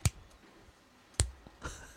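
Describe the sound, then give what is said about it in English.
A person makes a few slow, sharp clicks to imitate a female cicada's slow clicking. The widely spaced clicks stand alone against quiet background noise. “The female cicadas just click really slowly”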